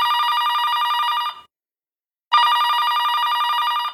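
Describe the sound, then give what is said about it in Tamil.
A telephone rings for an incoming call. It gives two long, bright electronic ring bursts separated by a short silent gap, with no voices. “Evening college முடியுது. அபிராமியோட அப்பா அவளுக்கு கால் பண்றாங்க.”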